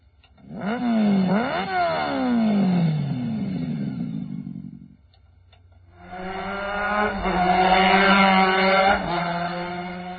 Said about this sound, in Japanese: エンジンかけるか。これスターターないから押しがけなんだよね。